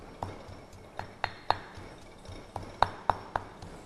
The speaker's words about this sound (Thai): เครื่องแกงนะคะเราก็จะต้องตำให้ละเอียดไปเลยนะคะโขกให้ละเอียดนะคะ